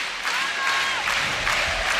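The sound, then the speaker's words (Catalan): Crowd cheering and applauding at a sports match with a Mallorcan team playing, a steady wash of clapping and crowd noise that swells slightly after a brief quieter start and holds for about two seconds. “S'anima el públic.”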